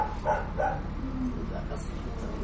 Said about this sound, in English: Oh, it's the dog? The dog.